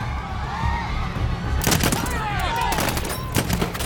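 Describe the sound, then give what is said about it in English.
Gunshots fired into the air amid street chaos, a rapid cluster of sharp cracks followed later by another shot, with voices and general commotion underneath. “Turop fires into the air as they run through the chaos.”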